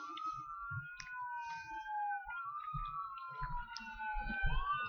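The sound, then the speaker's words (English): Emergency vehicle sirens pass by, wailing tones sweeping up and down in pitch with a second higher tone alongside, heard fairly faintly over scattered clicks and low thumps. “Sirens.”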